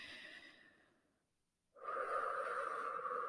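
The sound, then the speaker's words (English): A deep breath: a soft, breathy rush of air fades into a brief silence, followed by a louder, sustained airy breath that holds steady to the end, with no talking. “I just need to take a deep breath.”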